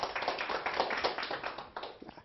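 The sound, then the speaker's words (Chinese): An audience claps hands in a lecture, a fairly quiet, dense patter of overlapping claps holding steady for about two seconds with no voices over it. “大家拍拍手，写得很好。”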